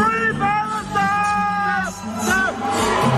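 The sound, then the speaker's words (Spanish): Crowd booing fills the Malmö arena during Israel's Eurovision semi-final performance. The loud, sustained jeers and yells run continuously beneath a singer's held notes. “El público que estaba en la arena de Malmo abucheó así a la representante de Israel durante toda su actuación.”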